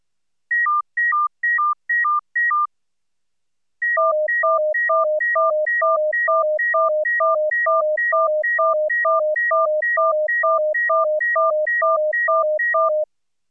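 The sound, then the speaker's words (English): Synthetic pure tones in a four-tone cycle with high and low tone streams: a brief alternation of two high beeps, a pause, then a long, fast, evenly paced loop of steady beeps at several pitches, with no voices. “Then we present the full four-tone cycle. You can now hear a low CD stream.”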